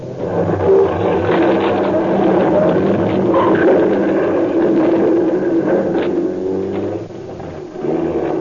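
A car engine roars and revs as the car drives off through the back of a garage. The sound is loud and continuous, with a brief dip near the end before it picks up again.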